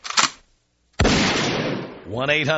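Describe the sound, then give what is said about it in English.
A gunshot sound effect fires as a single sharp, loud bang with a long, noisy tail that fades slowly. A brief voice speaks right after it. “take me out with a gunshot”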